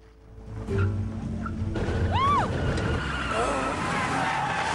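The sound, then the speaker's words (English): A taxi spins in a circle and sets off onto the road, its engine noise building into a steady rush, with a brief high squeal rising and falling partway through. “Harry and Frank bundle into the back of the taxi. Vicky spins them in a circle and sets off onto the road.”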